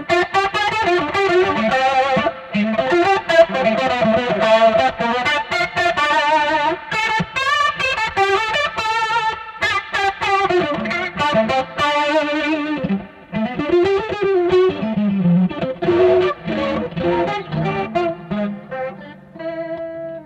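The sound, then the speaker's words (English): Electric guitar played through an MXR chorus pedal, with a shimmering, warbling chorus tone and slight grit. Busy melodic phrases run continuously, thinning into sparser, slower notes toward the end. “Last thing, I got my Schofield in a box, just a MXR chorus pedal”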